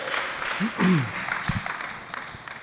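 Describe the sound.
A church audience claps and cheers for a reader. The clapping is scattered and uneven, with a few short vocal whoops and voices mixed in among the claps.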